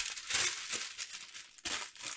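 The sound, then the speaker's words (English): Crinkly rustling of a large sheet of parchment paper being folded in half in a kitchen, a few quiet crackling bursts with a brief pause in the middle. “I love parchment paper. Take one of these big sheets, fold it in half,”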